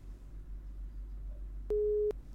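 A telephone busy tone sounds after a caller's line drops: one steady mid-pitched beep lasting under half a second, heard alone over a low hum.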